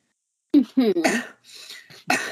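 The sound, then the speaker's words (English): Coughing from smoke filling a lab: a few short, harsh coughs in quick succession, some partly voiced, with a quieter breathy rasp between them. The coughs are moderately loud and not overlaid by speech. “Oh, you're coughing in my lab. Disgusting.”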